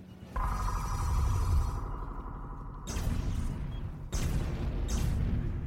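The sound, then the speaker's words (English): Three murder ships exploding in a sci-fi audio drama: a loud, steady rumbling roar with a high whine over it, then two fresh surges of blasting noise that carry on to the end. “Status report. The three murder ships have exploded, man. Look at that blown up, man.”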